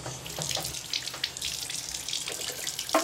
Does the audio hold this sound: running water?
yes